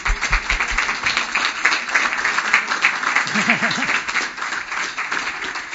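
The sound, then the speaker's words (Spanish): An audience gives strong applause at an event, with many hands clapping in a dense, continuous patter. A voice briefly rises over the clapping midway. “solamente os pido un fuerte aplauso a vosotros, que sois los que venís.”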